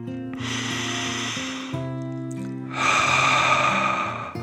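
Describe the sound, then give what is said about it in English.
Deep breath drawn in and let out, two long airy rushes of breathing with a pause between, the second louder, over a sustained low hum. “one more deep dragon breath in and out.”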